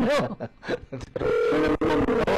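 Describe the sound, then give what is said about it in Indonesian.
A telephone line rings while a long-distance call to America connects; after a few short, uneven sounds, a sustained ringing tone carries through the second half at a fairly loud level. “Ini baru nyambung. Ya maklum kan sambungannya jauh ke Amerika.”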